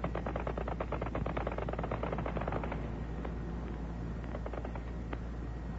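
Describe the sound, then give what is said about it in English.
Anti-aircraft fire: a dense, continuous barrage of rapid bangs and crackling blasts over a heavy low rumble, sustained and loud throughout. “The sound of anti-aircraft fire.”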